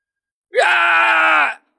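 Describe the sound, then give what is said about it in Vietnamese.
A single loud cry of agony, as from people struck down in a fantasy battle. The harmonic voice swoops up at the start, holds a steady, strained pitch for about a second, then cuts off abruptly, heard alone. “Hàng loạt tiếng kêu thảm thiết vang lên”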